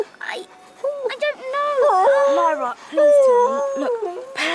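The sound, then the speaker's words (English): A wolf whimpers and whines in a radio drama, giving a string of high, wavering cries that bend up and down while people talk over and between them. “Shh. Quieter, Pan. If the children hear a wolf howling, we'll be in more trouble.”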